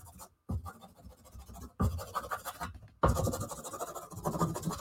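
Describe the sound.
Paper tearing and scraping while being worked with black medium during art-making: a rough, scratchy rasp in four stretches separated by short pauses, growing slightly louder in the later stretches.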